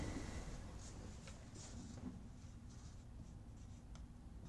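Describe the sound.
Faint, steady scratching of writing during an engineering lecture on virtual work, with soft irregular strokes and no talking.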